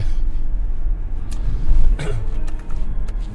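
A car being driven, heard as a steady low rumble of engine and road noise with a few short clicks scattered through it.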